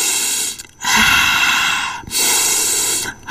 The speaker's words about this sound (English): Breathe in and breathe out, and calm down.